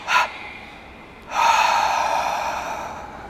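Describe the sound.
A deep exhale during a guided meditation: a brief sharp breath comes first, then a long, breathy outflow of air that gradually fades, with no talking.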